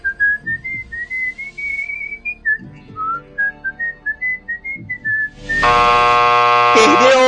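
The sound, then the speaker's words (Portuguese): Someone whistles the national anthem as a timed challenge in a comedy game show: a clear, high melody of steady and stepped notes with short gaps, then a loud buzzing tone cuts in and holds to the end. “Você tem 15 segundos para assobiar o hino nacional.”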